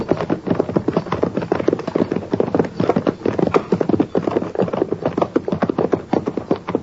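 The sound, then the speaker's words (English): A horse's hooves clip-clop in a quick, steady, continuous rhythm of many sharp knocks. The horse is near a burnt-out wagon on the prairie, and no other sound stands out over the hoofbeats. “And that's his horse, too.”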